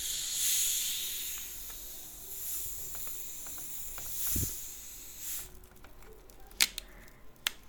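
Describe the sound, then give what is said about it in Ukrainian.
A can of Pepsi Max is opened, giving a soft fizzing hiss and a few sharp metallic clicks, all fairly quiet. “я вам зроблю АСМР. Ой, це потрібно ще це перед. Я саме я відкриваю Pepsi Max. Pepsi Max. Слухаємо.”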